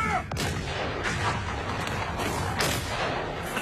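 Rifle gunfire in a battle against Japanese troops: several sharp shots crack out at irregular intervals over a dense, noisy background of continuous firing.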